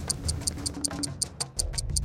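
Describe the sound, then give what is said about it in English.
A clock ticks rapidly and steadily, about five crisp ticks per second, over a low, continuous background sound. “The time's ticking.”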